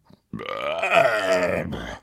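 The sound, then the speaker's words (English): A loud, long belch after slurping down an enormous bowl of stew. It comes as one deep, drawn-out burp that rumbles on steadily and then stops abruptly, with a faint short sound just before it. “Soon the giant had slurped his way through an enormous bowl of stew. He belched loudly,”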